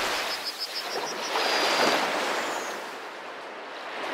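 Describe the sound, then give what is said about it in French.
Sea waves wash in a broad, hissing surge that swells to a peak and then slowly subsides into a softer, steady rush. “Observez, prenez le temps de regarder, d'observer les vagues.”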